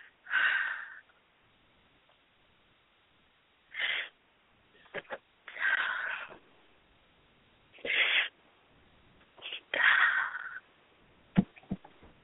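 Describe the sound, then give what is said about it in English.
A person breathing heavily: several loud, rasping breaths separated by quiet pauses, some with a wheezy, snorting edge, along with a few short clicks. “I got to breathe. Hold on.”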